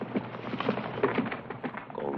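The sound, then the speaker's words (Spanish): Horse hooves clip-clop in a quick, steady rhythm as a horse is ridden away in a 1960 Western film scene, with soft, muffled hoofbeats over a low background rumble. “Bim la coge en brazos y la sube al caballo. En marcha, Angelito. Bim la ve alejarse conmovido.”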